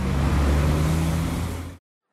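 A vehicle speeding off: a loud, steady engine roar with a low droning hum that eases slightly, then cuts off abruptly into silence.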